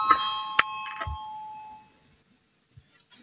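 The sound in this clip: A bell rung in a parliament chamber to call members to a vote, a bright ringing tone with steady overtones that sustains under two seconds and fades into near silence.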